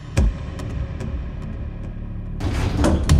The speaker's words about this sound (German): Und jetzt ist die Möglichkeit, wir haben hier einen Aufzug.